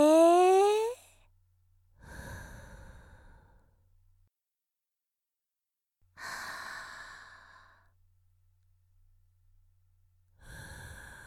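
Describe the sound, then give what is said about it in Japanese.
Slow, deep breathing in and out, heard as a few long, airy breaths separated by near-silent pauses. The first breath opens with a brief, rising voiced sigh. “吸って、吐いて”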